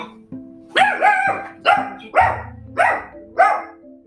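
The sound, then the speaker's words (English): A dog barks loudly and excitedly in a quick series of about half a dozen sharp, yelping barks, each rising and falling in tone. There are no voices between the barks. “Cassie's dog's going a little crazy.”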